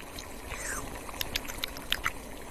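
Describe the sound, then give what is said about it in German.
Stirring food in a cooking pot: soft, continuous liquid swishing, broken by a few light, bright clinks of a spoon against the pot. “ab mit euch in den Topf hinein. Und jetzt umrühren.”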